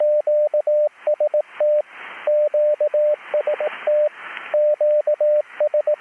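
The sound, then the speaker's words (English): Morse code cue signal QST is sent by radio from the official station at ARRL headquarters in Newington, Connecticut, ahead of a bulletin: a steady mid-pitched tone keyed in quick dots and dashes, repeated several times with brief bursts of static between groups. “What you heard was the cue signal QST being sent in Morse code.”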